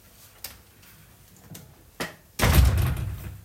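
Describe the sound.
Door being closed: a few light taps and knocks, then one heavy thud with a low rumble that lingers for about a second.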